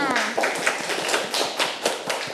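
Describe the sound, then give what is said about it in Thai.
Schoolchildren in a classroom clap for a classmate. The claps are quick, crisp and fairly regular, and a voice is heard briefly at the start. “เก่งมากค่ะเด็กๆปรบมือให้เพื่อนค่ะ”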